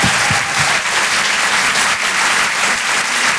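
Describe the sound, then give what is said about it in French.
Crowd applause at a live stand-up comedy show as a comedian is introduced, a loud, thick and continuous clapping that stays level for the whole stretch, with a few low thumps early on. “Je vous demande de faire un maximum de bruit s'il vous plaît pour Donnell Jacksman.”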